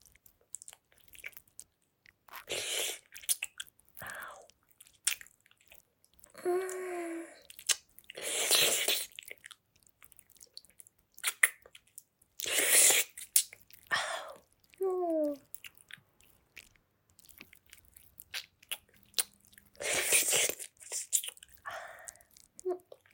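Close, quiet mouth sounds of chewing and biting while tasting food. Many short, soft, wet bursts are separated by near-silent gaps, with occasional faint vocal sounds between them.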